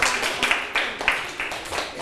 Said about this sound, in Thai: เก่งมากๆเลยปรบมือให้เพื่อนๆหน่อยครับ